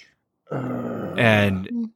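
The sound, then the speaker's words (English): A person groans aloud while talking about 3D movies. The low, voiced groan swells louder midway and ends with a short grunt-like tail. “Sorry, that's my groan out loud”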